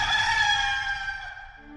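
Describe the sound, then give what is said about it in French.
A rooster crows from a farmhouse at dawn: one long, loud, tonal call that holds steady and then tapers off, heard alone. “Le chant du coq monta d'une métairie.”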